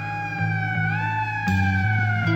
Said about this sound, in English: In the dark I hear a siren.